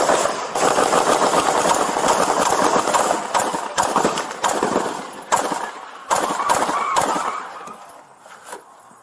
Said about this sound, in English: we got a man with an AK-47. He's shooting at us.